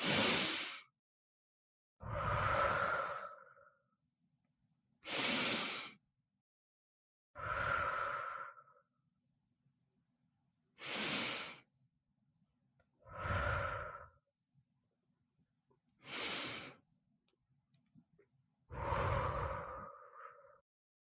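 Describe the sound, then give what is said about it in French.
Four deep breaths during a guided breathing exercise, eight separate breathing sounds in a slow, even rhythm. Airy inhales alternate with fuller, lower exhales, each lasting one to two seconds with quiet gaps between, and no voices. “je t'invite à fermer les yeux et à prendre 4 grandes respirations.”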